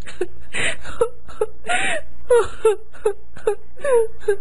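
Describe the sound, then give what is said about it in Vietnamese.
A woman wails and sobs in grief after her mother's death, many rising and falling cries in short bursts broken by breathy gasps, loud and close, with no other sound. “Cẩm Vân ngồi khóc.”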